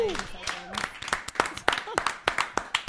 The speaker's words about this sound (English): All right, guys, give it up for our contestants.